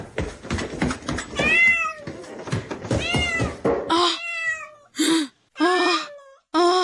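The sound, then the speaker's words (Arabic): A cat meows again and again, the calls first crowded together among scuffling noise and then separating into a few loud, drawn-out meows with short silent pauses between them. “ابتعدي أيتها القطة، فأنا لا أريد إزعاجا على الطعام حتى أستمتع بهذا الطعام اللذيذ. اذهبي من هنا أيتها القطة القبيحة.”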